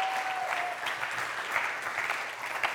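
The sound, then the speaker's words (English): Audience applause at a Father's Day church service as guest speakers are welcomed to the stage: a full, steady wash of clapping that keeps an even level throughout. “Would you put your hands together?”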